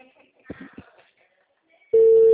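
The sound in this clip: A telephone call tone sounds as a loud, steady single-pitch tone that starts abruptly near the end, after a quiet stretch with brief, faint voice-like sounds.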